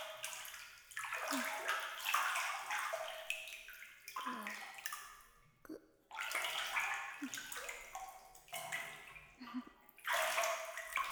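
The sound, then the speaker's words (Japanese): Hot bath water sloshes and splashes in repeated surges. Loud, broad washes swell and fade every few seconds, separated by a few brief dips. “お湯の中で筋肉ほぐすと天国でしょ。”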